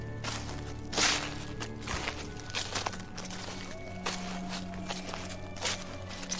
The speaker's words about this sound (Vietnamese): Tiếng bước chân lại tiếp tục vang lên xào xạc khô khốc.